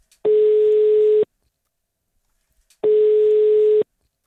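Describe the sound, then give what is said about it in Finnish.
A telephone ringback tone plays while a call is being placed. Two long, steady beeps at one mid pitch each last about a second, separated by a stretch of silence, with no voices. “Toivottavasti se tulee nyt, kun mä soitan Roosalle.”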